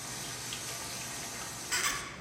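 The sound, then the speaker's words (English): A sink tap runs in a restroom, a faint, steady hiss of flowing water that swells briefly near the end. “The woman turns on the water for her daughter”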